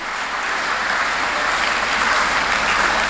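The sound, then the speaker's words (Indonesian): Steady applause from a crowd honoring the invited guests at a YKN Kupang event, a dense, sustained wash of clapping that holds an even loudness for the whole stretch with no voices over it. “Ya, tepuk tangan buat semua tamu undangan.”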